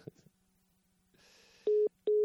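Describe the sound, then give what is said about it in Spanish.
Telephone call beeps sound as four short, loud electronic tones in two quick pairs, after a faint low hum and a brief hiss. “pues ya habéis oído hasta el pipipi de la llamada”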